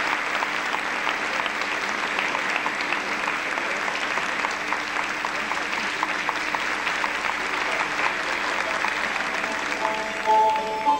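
Sustained applause in honour of a guest: dense, even clapping that holds steady at a constant level for the whole stretch, with no voices over it.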